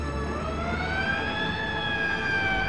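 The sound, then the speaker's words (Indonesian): An ambulance siren arriving at a road accident involving a motorbike rider, a sustained wailing tone with gentle pitch drift riding over a continuous low traffic rumble. “tak berapa lama kemudian ambulans datang.”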